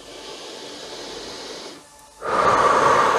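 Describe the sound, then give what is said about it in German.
Slow shared breathing in and out: a softer airy breath, a brief near-silent pause, then a louder, fuller rush of breath. “Lass uns nun gemeinsam ein- und ausatmen.”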